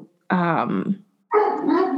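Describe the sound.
A dog giving two drawn-out, whining barks separated by a short silence. Each lasts under a second and has a clear, slightly wavering pitch.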